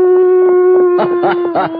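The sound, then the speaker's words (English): A man's voice imitates a coyote howl, starting with a sustained, nasal, mid-pitched tone. It then breaks into a series of quick, wavering yips that rise and fall, loud and alone. “This has to be a coyote. Well, here goes.”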